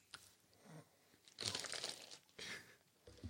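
Quiet crunching and tearing as a blunt knife saws through cheese, coming in a few uneven bursts.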